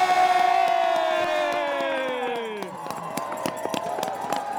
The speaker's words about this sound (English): it's as strong as ever as they cheer on the winners.